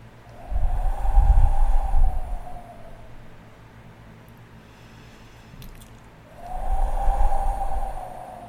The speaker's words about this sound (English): Continuing to breathe in and out.